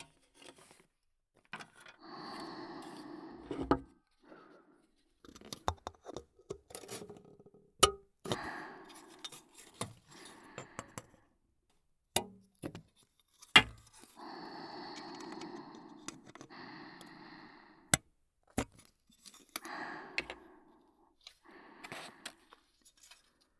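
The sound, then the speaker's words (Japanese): Small parts being cut: many sharp, irregular snips and clicks, faint overall, separated by quieter handling noises and pauses. “こっちは細かい部品が多いので、切る音が多”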